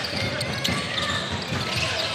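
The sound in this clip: Basketball dribbling during a professional game in Jerusalem: a few sharp ball bounces on the court under continuous commentary and arena crowd noise.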